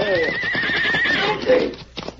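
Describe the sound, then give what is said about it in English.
A riderless horse runs away along a trail, whinnying with a high, wavering neigh over a steady clatter of hoofbeats. The whinny rises and shakes early on, then returns more briefly before the hoof sounds fade. “That horse is running away. Get this way. Stop him.”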